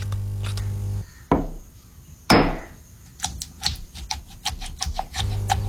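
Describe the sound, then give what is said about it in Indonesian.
A stone pestle works chili sambal in a stone mortar. Two heavy knocks come first, then a quick, rhythmic run of many light taps and clicks over a low background hum. “Ulekan itu digerus pakai pergelangan, bukan dipukul kayak palu.”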